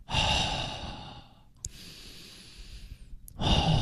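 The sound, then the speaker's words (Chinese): Deep breathing during a diaphragm breathing exercise. A long, loud, airy breath is followed by a softer, slower one, and another strong breath starts at the end. There is no talk. “如果你到极致的时候吸气，然后到末端开始尝试呼气”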